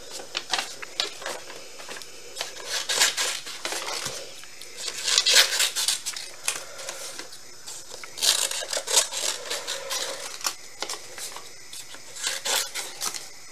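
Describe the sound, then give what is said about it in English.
Earrings being cut: many sharp clicks and snips in an irregular rhythm, moderately loud bursts with brief pauses, and no voice over them. “So, we're going to cut my earrings.”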